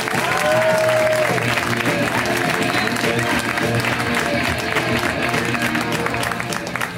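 A crowd applauds a comedian's introduction at a stand-up comedy show, continuous loud clapping from many hands that holds evenly for the full seven seconds.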